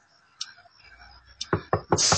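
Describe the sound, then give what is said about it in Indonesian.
Knocking on a bedroom door late at night: three sharp, evenly spaced knocks come after a few faint ticks and clicks in an otherwise quiet space. “Sampai kudengar ada yang mengetuk pintu kamar.”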